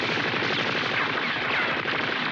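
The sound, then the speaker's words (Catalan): Sustained automatic gunfire in an animated cartoon scene, with a hail of bullets fired at a man. The shots form a loud, dense, unbroken rattle that stays constant throughout, with no talk over it. “en Bora tensa la musculatura i entoma totes les bales, que no li fan res”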